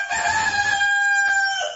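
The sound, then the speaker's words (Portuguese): A rooster crows once, a loud, strained, drawn-out call of nearly two seconds with a harsh, ringing tone and no other sounds competing. “apareceu um galo aí possante pra disputar”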